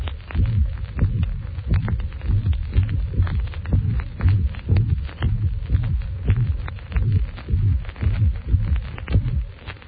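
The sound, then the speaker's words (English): Heart sounds repeat in a steady, regular cycle: a low-pitched presystolic rumble swells into a snapping first heart sound, followed at once by a short, high-pitched, blowing systolic murmur, over a constant low hum. “Note the crescendo, the low-pitched pre-systolic rumble, which merges with a snapping first heart sound. The latter is followed immediately by a short, high-pitched, blowing systolic murmur.”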